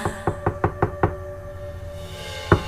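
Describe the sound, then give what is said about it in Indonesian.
Knuckles knock on an apartment door in a quick run of about six sharp raps. After a pause, two more raps follow. The knocks are crisp and clear with no voices. “terdengar suara ketukan di pintu apartemenku.”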